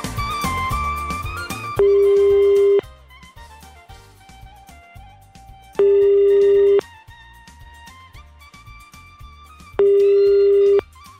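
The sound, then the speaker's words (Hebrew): Telephone ringing tone during a call to a listener who does not answer: three long, steady electronic tone bursts, evenly spaced and loud, sounding over quiet background music with no talk. “בוא נעשה עוד חיוג אחד אחרון.”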